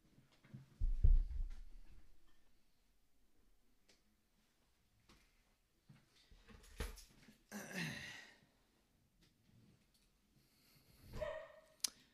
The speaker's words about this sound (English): If you hear a dog barking in the background, that's my dog barking in the background.